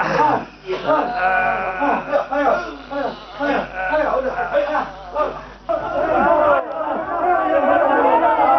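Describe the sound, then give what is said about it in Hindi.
A crowd shouts slogans, a mass of loud voices rising and falling in repeated rhythmic bursts with chatter throughout, swelling again toward the end. “अरे अब ये नारे क्यों लगने लगे साहब? लगता है चीफ साहब आ गए।”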